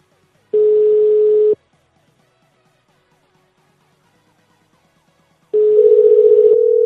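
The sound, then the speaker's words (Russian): A telephone line tone sounds in two steady bursts, each lasting about a second, separated by a long quiet gap. The second burst is joined by a slightly higher tone as a number is dialled from another phone. “Так, я ему с другого набираю сейчас.”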